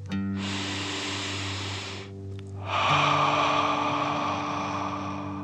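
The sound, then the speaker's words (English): A deep breath in and out during a guided breathing exercise: a long airy inhale, a short pause, then a stronger, louder exhale, over a soft sustained musical drone. “let's take three more deep dragon breaths. Deep breath in and out.”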